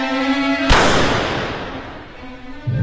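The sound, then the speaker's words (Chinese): A single sharp gunshot bursts out over a low steady hum, its blast trailing off into a long, slowly fading rush of noise. “枪声响起的同时车已经飞驰而出。”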